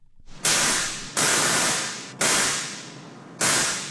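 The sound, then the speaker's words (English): Four loud bursts of crackling, hissing electrical discharge from a large replica Tesla coil, caged and suspended above a brewery production floor. Each burst begins sharply, then fades slightly before the next one strikes. “That's the sound of a Tesla coil.”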